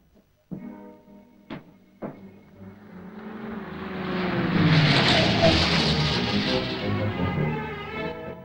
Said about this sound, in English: sees a car approaching